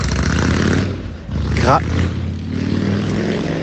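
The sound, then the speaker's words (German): Heavy, loud rumble of a big Harley-Davidson motorcycle riding past along a street in Sicily at night, with a brief voice heard over the continuous engine roar. “Jetzt fährt hier so ein Typ in so einer fetten Harley lang.”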